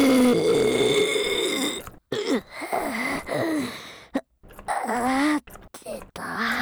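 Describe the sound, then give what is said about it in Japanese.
A person burps repeatedly, letting out loud, drawn-out voiced belches broken by gasps and short silent pauses. “ゲップ出ちゃった”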